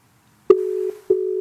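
Telephone line tone heard while redialing a call that went unanswered: a click opens a steady, low, pure tone that drops out briefly with another click and then resumes, alone without voices.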